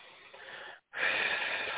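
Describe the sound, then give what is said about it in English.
A soft breath drawn in through the nose, followed by a brief silent hold and then a slightly louder, breathy release, with no talk. “Take three breaths in through your nose, hold it for a second, and release.”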